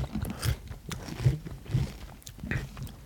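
Crunchy chewing and biting during a tasting of food with honey mustard: several soft, uneven crunches and mouth sounds in a loose rhythm, with no talk.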